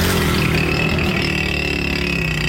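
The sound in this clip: Traffic noise from rickshaws and motorcycles with punctured silencers: a loud, continuous, rough engine drone and rumble that holds steady throughout, with no talk.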